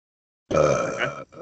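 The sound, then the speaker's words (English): A single low, voiced burp lasting under a second, loud and alone, followed by a short, softer guttural sound. “Did you just burp on my podcast?”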